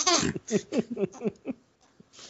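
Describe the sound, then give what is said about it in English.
A baby girl fusses and babbles in a string of short, high-pitched vocal bursts, growing fainter toward the end. “Your people aren't going to like Star Wars if they keep hearing a baby the whole time. Baby girl, go back to sleep.”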